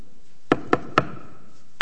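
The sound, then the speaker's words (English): Knuckles rap on a door in a secret-knock pattern: three quick, evenly spaced knocks, a short pause, then one final knock. “Thomas showed up right after that with the secret knock.”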